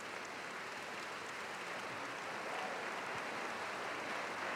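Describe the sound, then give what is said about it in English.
A capacity audience applauds at the War Memorial Opera House in San Francisco after the San Francisco Symphony plays Berlioz's Symphonie fantastique. Steady, dense clapping swells slightly toward the end. “Well received by this capacity audience here at the War Memorial Opera House in San Francisco.”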